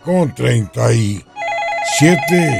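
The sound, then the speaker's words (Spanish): A telephone rings with an incoming call, a warbling electronic trill pulsing steadily after a man speaks, with his voice continuing over the ring near the end. “entra una llamada”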